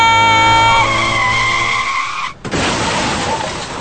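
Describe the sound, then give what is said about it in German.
A car skids with a loud, sustained tyre squeal while braking. After a short dip it crashes into a house wall with a harsh, noisy crunch that carries on to the end. “Hättest vorher eben bremsen müssen. Dann wärst du auch nicht gegen die Hauswand gefahren.”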